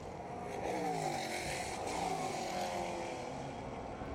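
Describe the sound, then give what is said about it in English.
Faint engine drone of the Meyer Shank Racing Acura, car number 60, getting up to speed during a first official practice session, a steady buzzing note that holds for about four seconds. “at the wheel of the Meyer Shank Racing Acura car number 60. He's just getting that car up to speed, just completed his third lap”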